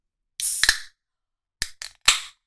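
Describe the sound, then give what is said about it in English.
A can of Helles beer from Falling Knife cracked open: a sharp snap with a bright fizzing hiss, then after a pause a few quick clicks and a second, stronger hiss that fades. “Let's give it a little crack. Get some new glasses. Cracking a beer. Here it goes.”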